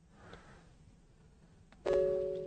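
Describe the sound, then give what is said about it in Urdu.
A single bell chime sounds near the end after quiet background hiss, a clear ringing tone with bright overtones that sustains and slowly fades. “آج بیل پھر بند کی ہوئی آپ نے، ہلکی چل رہی ہے”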